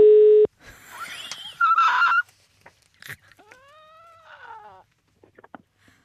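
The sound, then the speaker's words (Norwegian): A telephone ringing tone sounds during a call: one loud, steady mid-pitched beep at the start, followed by quieter warbling, honk-like harmonic sounds with no talk. “jeg tror jeg bare kjører på og prøver å ringe Johan”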